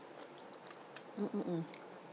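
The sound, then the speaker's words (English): Faint wet mouth sounds of someone licking food off a container lid: soft smacks and slurps with small clicks, and a short low hum partway through. “Some stuck onto the lid, and I'm going to be a bit naughty and just lick the lid.”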